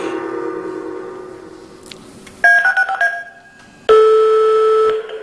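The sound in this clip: Telephone number being dialed: several short stepped dial tones in quick succession, then a single longer steady tone, all alone over a low hum with no talk.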